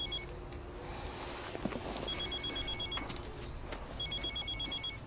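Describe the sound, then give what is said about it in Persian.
A telephone rings with bursts of repeated electronic trilling beeps. The ringing is fairly faint over steady background noise and continues to the end. “از صبح تالا 200 بار زنگ زده بنده خدا، نگرانه دیگه.”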